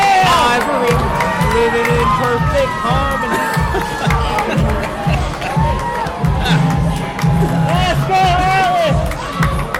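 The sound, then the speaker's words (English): A professional wrestling crowd cheers hometown favorites: loud, sustained roaring and whooping with shouting voices, surging and dipping without a break. “Crowd's going crazy for these two.”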